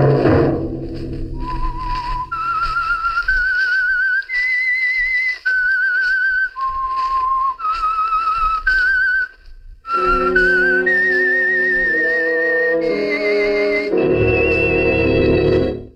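Whistled theme melody from the 1946 radio drama The Whistler, a solo line of long, steady held notes stepping between pitches, later joined by a lower sustained accompaniment.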